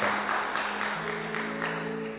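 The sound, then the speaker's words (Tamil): A church audience claps to welcome a visiting pastor, a steady wash of many hands applauding that holds at an even level throughout, with no speech over it. “எல்லோரும் கரங்களை தட்டி அவரை உச்சாப்பாட வரவேற்பு.”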